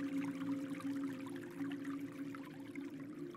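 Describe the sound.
A babbling stream gurgles and rushes steadily, its soft watery texture continuous for the whole stretch over a sustained low hum, with no distinct breaks or separate events.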